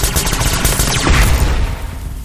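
Rapid, sustained gunfire is unloaded on a humming signal box. It forms a dense, continuous barrage of overlapping shots that runs loud for the whole clip, with no voices.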